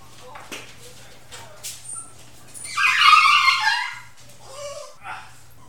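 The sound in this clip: A dog whimpering and yelping: a few short high whines early on, then a louder, drawn-out yelping cry in the middle, followed by softer whimpers over a low steady hum.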